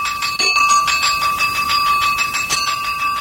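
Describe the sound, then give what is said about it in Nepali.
A school bell marks the end of a class period with continuous, rapid metallic ringing and bright, steady overtones. It is loud and heard alone, with no talk. “आज त period सकिएको पनि थाहै भएन, कति छिटो घन्टी बज्यो।”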